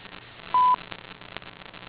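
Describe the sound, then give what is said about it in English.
A single answering-machine beep: a steady, mid-pitched electronic tone lasting about a fifth of a second, loud against faint telephone-line noise. “At the beep, please leave a message.”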